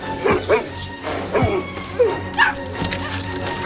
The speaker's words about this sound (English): The puppies scratch at the door.